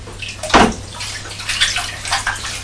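Water running from a tap as sticky fingers are rinsed: a steady hissing splash with a louder burst near the start and uneven swells as the hands move through the stream.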